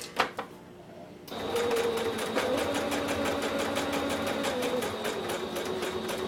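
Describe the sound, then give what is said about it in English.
A sewing machine runs a regular straight stitch around a fabric edge, a steady rapid mechanical whir with fast rhythmic needle ticks, preceded by a few separate clicks. “So I'm leaving some space for where the hole's going to be. And I'm just doing a regular straight stitch around the edge.”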